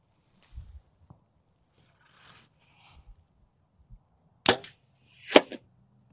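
A golf shot hit with a hybrid club: a sharp, crisp crack of the strike, then about a second later a second sharp snap, set against near silence with a few faint rustles beforehand.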